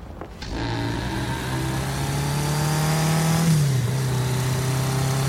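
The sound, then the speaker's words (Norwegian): Car engine droning steadily while driving on a potholed road with only the parking lights on; a continuous mid-pitched hum holds throughout, with a brief dip in pitch near the end. “Jeg kjører med bare parklys. Må vekke minst mulig oppmerksomhet.”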